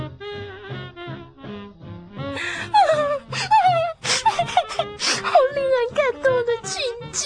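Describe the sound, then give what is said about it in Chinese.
A person cries after watching a film, wavering whimpers and wails with sliding pitch, much of it sobbing mixed into broken speech. “别哭了啦，电影还不都是假的？”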